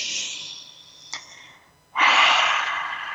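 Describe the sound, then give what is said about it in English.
Deep breathing during a guided relaxation exercise. A soft breath fades out with a small click, then after a short pause a loud, long airy breath rises sharply and slowly trails off. No voices. “Let's take another deep breath together.”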